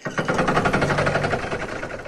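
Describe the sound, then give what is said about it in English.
Grinding of gears sound effect: a loud, harsh mechanical rasp that runs steadily for about two seconds with fast, even pulsing throughout. “Can I get a grinding of gears sound effect here?”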